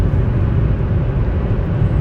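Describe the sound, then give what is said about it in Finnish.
A car engine drones as the driver pulls into a passing lane to overtake, a loud, steady, low rumble with no clear change in pitch. “Nyt on ohituskaista. mä lähden ohittaa.”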